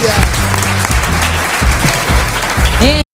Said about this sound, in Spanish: Un aplauso para los chicos, por Dios.